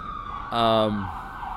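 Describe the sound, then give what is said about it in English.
An ambulance siren in New York: a single brief, loud wail with stacked tones that sounds for under a second, its pitch dropping as it fades into a low background hum. “Yeah, it's an ambulance.”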